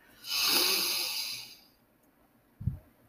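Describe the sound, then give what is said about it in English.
A slow breath drawn in through the nose during a guided breathing exercise, heard as a soft, steady airy hiss lasting more than a second. It fades out, and a brief low thump follows. “So you're going to breathe in through your nose. You're going to hold it and breathe out through your mouth.”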